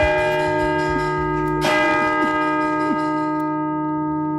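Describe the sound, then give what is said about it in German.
Georgskirche bells in Ulm. A light rattling from the church bell's striking mechanism gives way to a sharp clanging strike near the middle, over a loud sustained ringing tone that slowly fades. “Ja, ich höre das Rattern vom Schlagwerk.”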